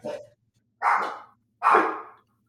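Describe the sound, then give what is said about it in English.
A dog barks three times, each bark short and hoarse with a gap of silence between them, heard alone without any voices. “your dog started barking.”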